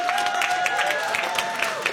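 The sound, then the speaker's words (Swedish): Applause for a finalist duo's mix at a music mixing competition: a brief, steady wash of clapping with a sustained tone running beneath it. “en applåd för deras mix.”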